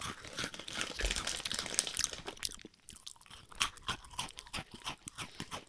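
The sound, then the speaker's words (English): Crunchy snacks being eaten: loud crisp crunching and chewing, with dense bursts at first that settle into a regular run of separate chews. “we're eating more of these snacks. They're really good.”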